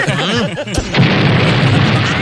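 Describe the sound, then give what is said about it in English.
Propane gas tanks explode beside a lit flame. A brief voice gives way to a sudden, loud blast, and a dense roaring rumble then holds steady to the end. “Just look at this room, full of LP gas tanks right next to a lit flame. What do you call that? Well, I call it our propane fat finale.”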